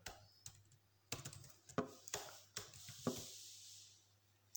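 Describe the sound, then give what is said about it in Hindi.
Typing on a laptop keyboard while entering a search for a blogging site: faint, crisp key clicks in short irregular bursts, some taps sharper than others, with quiet gaps between. “सबसे पहले आपको Google पे type करना है blogger”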